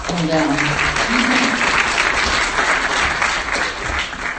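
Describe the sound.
A crowd claps steadily and loudly to welcome a speaker at a talk on community solar and battery technology. The applause runs throughout, with a brief voice heard at the start.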